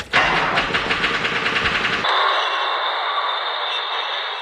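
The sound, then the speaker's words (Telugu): A bus engine starts as the bus pulls away, giving a loud rhythmic rumbling chug for about two seconds before cutting abruptly to a steady hiss. “ఇక bus ఎక్కడ ఆపకుండా తొందరగా పోని. Right right.”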